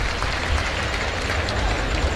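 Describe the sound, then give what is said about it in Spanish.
A bullfight crowd in the bullring gives an ovation for the matador's work with the muleta, a dense, steady roar of applause and cheering that holds at an even level throughout. “Una faena bien pensada, bien estructurada y que el público está ovacionando.”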